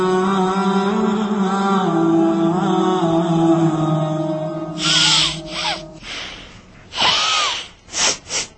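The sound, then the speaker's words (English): A child blows their nose forcefully in several loud, wet, snorting bursts of breath, irregular and abrupt, after a stretch of steady droning sound. “stop blowing your nose like that.”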